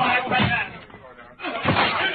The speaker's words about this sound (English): All right, everybody, we've got to break that door in.